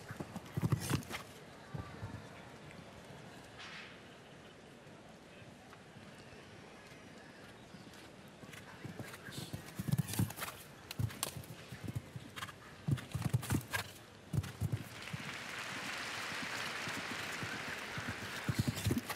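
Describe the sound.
Hooves of a 15-year-old show jumping horse clip-clop across the arena during a round, an irregular run of dull thuds and scuffs that stays fairly quiet against a steady background.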